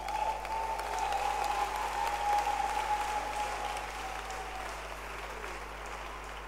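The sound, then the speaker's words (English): Congregation applause at a church service, honouring a bishop: a sustained wash of many hands clapping, steady and fairly soft, slowly tapering off toward the end. “Clap your hands for Bishop Sam.”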